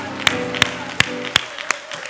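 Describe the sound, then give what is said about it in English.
A church audience claps in praise of the Chancellor Choir. About five sharp claps land in steady, even time, each a crisp burst, while sustained musical tones hold underneath. “Can we give a hand clap of praise for this Chancellor Choir”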